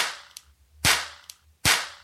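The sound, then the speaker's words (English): Sharp toy pop gun shots from an Alex Hornibrook limited edition pop gun, two loud cracking pops, each preceded by a smaller click, with quick decays between them. “That is my Alex Hornibrook limited edition series of pop guns.”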